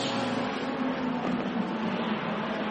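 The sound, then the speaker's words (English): Racing car engine heard as a steady, even drone with a low humming tone that holds throughout, faint and unbroken. “1, 2, 3, 4 down through the gearbox.”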